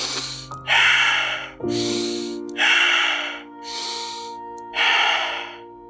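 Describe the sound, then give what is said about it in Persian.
Five deep breaths, each a loud, airy inhale or exhale, come in a slow, uneven rhythm, with short pauses between them and one softer breath near the end. “بشین و موقع فکر کن چند تا نفس عمیق بکش”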